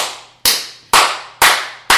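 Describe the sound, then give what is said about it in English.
One person applauds alone: four sharp, evenly spaced claps, each loud and crisp with a short fading tail. “That's me applauding George Templeton Strong”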